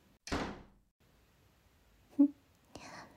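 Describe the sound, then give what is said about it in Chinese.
A door is pushed shut with one dull, loud thud that fades quickly. After a quiet stretch comes a short knock, then soft whispering. “你居然敢把门关上”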